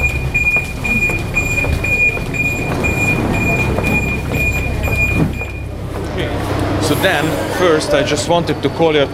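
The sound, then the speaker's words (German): Budapest metro train ride: a steady rumbling ride noise with a thin high whine that cuts off partway through, followed by rattling and clatter. “Und deshalb steigen wir zuallererst in die U-Bahn, fahren an den Rand der Altstadt.”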